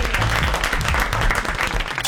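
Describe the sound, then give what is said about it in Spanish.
Big, sustained audience applause for a family show, loud and dense throughout with no break, its texture of many hands clapping staying even from start to finish. “Bravo, el aplauso. Bravo. Bien grande.”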